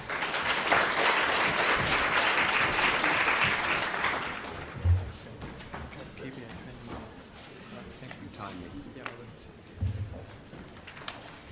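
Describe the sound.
Audience applause welcoming a keynote speaker at a conference, a dense burst of clapping for about four seconds that then dies away into scattered faint sounds.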